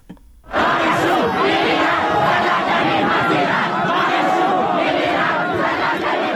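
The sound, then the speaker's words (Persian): Students in Iran chanting protest slogans against recent restrictions, a loud crowd of many voices chanting together that bursts in after a brief quiet moment and stays dense and sustained. “در تصاویر و ویدیوهای منتشر شده در شبکه‌های اجتماعی دانشجویان با در دست داشتن نوشته‌هایی در اعتراض به محدودیت‌های اخیر در ایران شعارهایی سر می‌دهند.”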